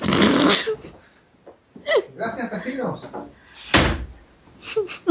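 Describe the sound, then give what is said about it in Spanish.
A window being closed gives a short rattle near the start and a firm thud later, with people talking in between. “Un segundito que estoy cerrando la ventana ya para.”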